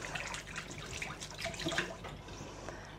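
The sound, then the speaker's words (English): A running tap splashes steadily as hands are washed free of a messy rosemary and garlic butter paste, a continuous hissing flow with small splashes and no talk. “you might want to wash your hands because it's rather messy, and that's exactly what I'm going to do.”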